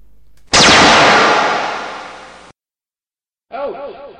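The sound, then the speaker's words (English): A laser weapon sound effect fires as one loud, harsh burst of hissing noise lasting about two seconds and fading toward its end, then after a short silence a briefer warbling effect follows. “Now then, I'm a charging my lasers. And now I'm a firing my smiting thing.”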